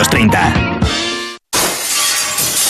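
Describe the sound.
Glass shattering: a loud, bright crash of breaking glass that spreads into a dense, noisy scatter of tinkling shards and then trails off.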